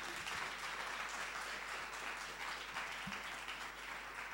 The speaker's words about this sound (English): So then put your hands together and master the energy within you. Make some noise as we welcome your debaters.